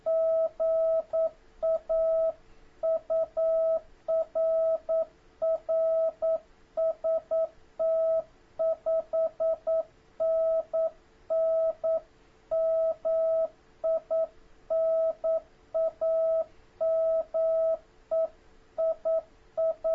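Morse code tones from an amateur radio contact: a single steady, mid-pitched beep keyed continuously in rapid dots and dashes, with no voices.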